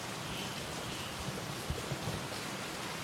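Rain during a thunderstorm in Singapore, a soft, even hiss of falling water with a few faint drop ticks scattered through it and no talk.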